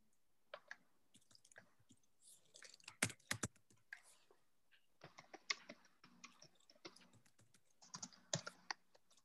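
Fingers typing into a chat window on a computer keyboard: many faint, uneven keystroke clicks, sometimes in quick clusters and sometimes in brief pauses, running throughout with no talk.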